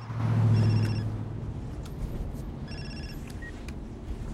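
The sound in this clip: A mobile phone rings in the back of a sleek black car with two short, faint electronic trilling bursts separated by a pause, over a low engine rumble that is strongest at the start.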